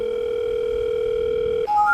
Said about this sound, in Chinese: 我们打一个电话吧， 请个人带带我们。